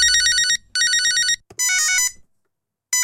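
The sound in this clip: A telephone ringing with a bright, high electronic ringtone in loud pulsing bursts. Three full rings sound with short gaps between them, a longer pause follows, and a fourth ring begins at the very end. No voices are heard.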